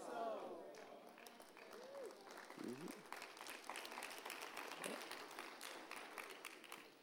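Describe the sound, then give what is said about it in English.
Quiet, polite golf claps from a church audience: faint, scattered clapping that picks up after a voice speaks at the start and goes on softly to the end. “Some of you are into golf claps. Go ahead. Just thank God that it's so.”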